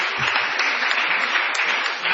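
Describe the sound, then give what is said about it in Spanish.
Applause from a studio audience celebrating a couple's engagement on a show. The clapping is even and sustained for the whole short stretch, with no voices over it. “Qué maravilla, un aplauso.”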